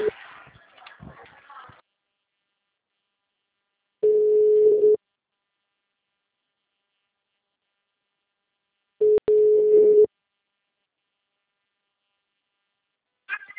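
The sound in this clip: A telephone ringback tone sounds on a call. Two steady, mid-pitched beeps each last about a second, with several seconds of silence between them. Brief talk is heard at the start.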